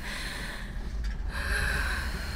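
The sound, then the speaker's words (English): Gasping and deep, ragged breathing, a few rough breaths and catches of air over a steady low hum, with no words spoken. “Deep breaths. Hey, breathe with me, okay? I'm right here. Just breathe with me.”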